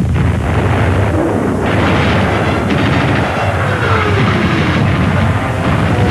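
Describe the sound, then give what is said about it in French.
German artillery batteries open fire during the battle of Stalingrad. Dense, continuous booming and blasting stays loud throughout, with the individual shots merging into one heavy roar. “les batteries allemandes ouvrent le feu dans le but d'enrayer une violente attaque soviétique.”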